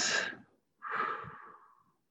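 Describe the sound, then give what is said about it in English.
A breath taken together as a group during a grounding exercise: a short airy breath, a brief silence, then a longer, softer breath that fades away, with no talking. “Let's just take a breath together, being grounded in this space.”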